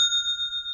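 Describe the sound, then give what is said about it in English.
A sale notification chime from an online commerce platform: one bright, sustained bell-like ding that rings at a steady pitch and holds evenly throughout, with no voices. “That is the sound of another sale on Shopify,”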